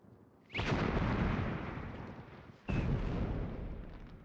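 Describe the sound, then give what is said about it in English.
Magical fire conjured by Tim the Enchanter in a Monty Python film: two loud, sudden whooshing blasts of flame, each bursting in sharply and then rolling off into a fading roar. “What manner of man are you that can summon up fire without flint or tinder?”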